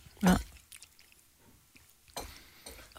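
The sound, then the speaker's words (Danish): Someone chewing a bite of sausage: one loud, wet bite near the start, then faint, soft squishing and mouth sounds in a quiet pause. “Jeg behøver ikke at spise det hele. Nej. Der er mange pølser i mig.”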